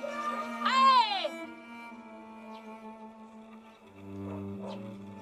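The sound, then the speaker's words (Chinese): Someone cries out in a brief, high, quavering wail, loud for about half a second. Quieter sustained tones follow it. “我听见你哭了，你别哭。你不要哭。”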